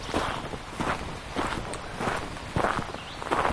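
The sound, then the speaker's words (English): Footsteps walking along a country road: soft, scuffing steps fall in a steady, unhurried rhythm over a constant background hiss. “I'm still walking back on the road.”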